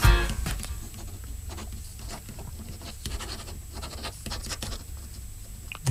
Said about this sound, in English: What are you doing? Just writing you a note.